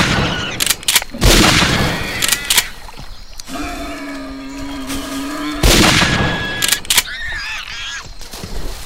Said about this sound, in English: I've just pressed page down to shoot from up in the tree, so I don't like boars.